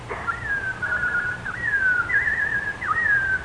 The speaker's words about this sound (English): What do I hear? Can it be that... Oh, it is. Oh, my little robin friend.